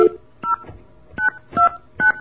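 Telephone keypad tones beep as a number is dialed: a series of short, evenly spaced dual-pitched blips separated by brief pauses, with faint background hiss between presses.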